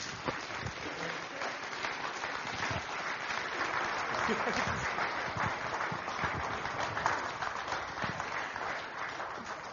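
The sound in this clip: Warm audience applause welcoming a guest, a dense, continuous patter of clapping that stays level for nearly ten seconds.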